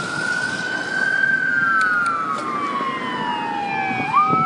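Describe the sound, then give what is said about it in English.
Fire truck siren wailing loudly as the truck turns left, one long continuous tone that slowly drops in pitch, then jumps sharply back up right at the end. “Okay, that's the fire truck. It's turning left. That's good. Not coming this way.”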